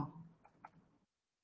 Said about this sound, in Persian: اینم تایپ میکنم که دیگه جلو چشم باشه